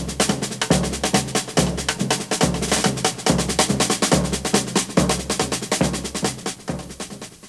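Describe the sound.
Tom-tom and snare drum playing a steady samba rhythm together: deep booming tom strokes recur in regular groups under dense, rapid snare hits, loud and driving throughout with no voices.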